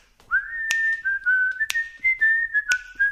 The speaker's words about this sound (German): Und wenn ein Sturm aufzieht, pfeife ich ein Lied.